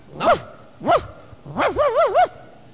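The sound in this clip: A man imitates a dog barking: a few short, pitched woofs, then a quick run of wavering yaps. The sounds are loud and heard alone.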